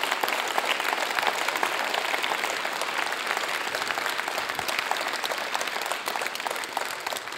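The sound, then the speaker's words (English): Applause from an audience standing to honour a couple at a morning gathering: dense, even clapping that holds steady and loud for the whole stretch, with no voices over it. “All these applauses.”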